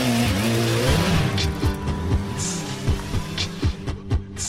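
A motorcycle engine revs as it starts off, with several loud rising revs as it accelerates, each climb in pitch followed by a brief drop.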